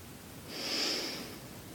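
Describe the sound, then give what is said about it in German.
One slow, deep inhalation during a guided standing breathing exercise, a breathy hiss that swells up, peaks midway and eases off, fairly faint and with no talking. “Konzentriere dich auf deinen Atem. Einatmen.”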